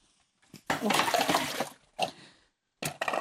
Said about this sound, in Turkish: Ben şunu bir yıkayım geleyim de buraya alayım şeylerimi ya.